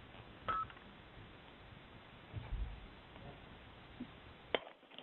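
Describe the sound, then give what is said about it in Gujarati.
Telephone dialing tones while calling back a dropped caller on a phone call, heard as a few faint, short beeps separated by quiet gaps, with a sharp click near the end. “લાગે છે નીરજભાઈ drop થઈ ગયા છે. ના ના. Okay I'll call હિમ again.”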